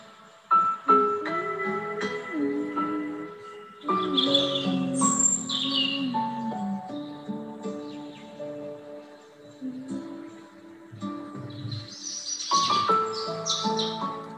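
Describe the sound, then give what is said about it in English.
Birds sing in the morning, with many overlapping melodic whistles, trills and chirps of varying pitch running continuously and fairly loud, with no voices. “As we hear the birds singing”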